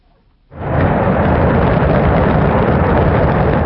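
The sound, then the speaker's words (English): Roar of a Shenzhou 23 crewed rocket lifting off from a launch center in Inner Mongolia. After a half-second hush, a loud, dense rumble bursts in and holds steady to the end. “That's the sound of China's Shenzhou 23 rocket blasting off on Sunday from the Jinguhuan Launch Center in Inner Mongolia.”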